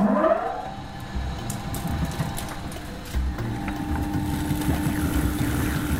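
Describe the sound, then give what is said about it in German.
A stone grain mill starts up and grinds rye. A motor whine rises in pitch at the start, then settles into a loud, steady mechanical drone with a rough grinding rumble underneath. No voices are heard. “Das hier ist eine Steinmühle. Und die werfen wir jetzt mal an. Das wird sehr laut.”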